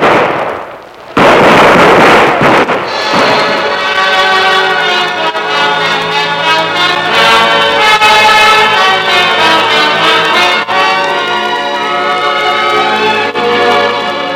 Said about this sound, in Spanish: Zapata acudió al lugar con escasa escolta. Los soldados le presentaron armas dos veces. A la tercera vez, dispararon.